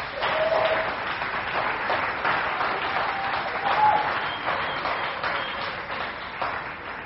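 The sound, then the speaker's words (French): A church audience applauding, with dense, sustained clapping from many hands that stays loud throughout and swells slightly now and then before easing toward the end. “Tu peux acclamer Dieu pour ta vie.”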